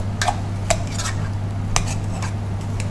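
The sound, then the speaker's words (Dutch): A potato masher pounds crumbly boiled potatoes in a pot, making many soft, irregular scraping thuds with light metallic clinks over a steady low hum. “En dan ga ik stampen. Super makkelijk, want het is echt uh, kruimig.”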